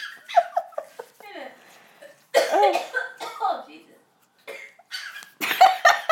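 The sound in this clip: Coughing in several short, harsh bursts, mixed with people talking.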